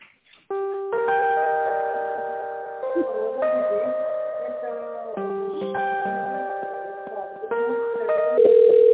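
Electronic tones play over a telephone line while a call is transferred: sustained pitched notes that change in steps like a simple melody, steady and fairly loud, with no voices.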